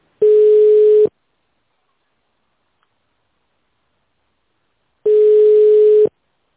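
Telephone ringback tone heard while a caller waits for an answer: two steady, mid-pitched one-second tones separated by about four seconds of silence, clear and alone.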